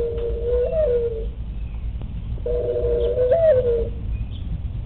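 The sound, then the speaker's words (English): A mourning dove coos two separate soft, low, hooting phrases, each with a slight lift in pitch partway through, against a quiet rumbling background. “yes, what you hear in the background is a mourning dove.”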